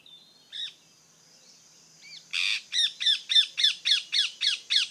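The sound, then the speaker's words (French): Rose-ringed parakeet squawking: a single harsh call, then a faint one, then a long, rapid, evenly paced series of loud, grating squawks. “Aujourd'hui, la perruche à collier.”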